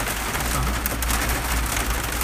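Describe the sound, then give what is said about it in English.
Rain falls on a Jeep in a steady, even patter. The hiss of drops stays constant and unbroken the whole time, with a low rumble underneath. “It's raining. No, I'm not scared of the rain. And we're still in the Jeep.”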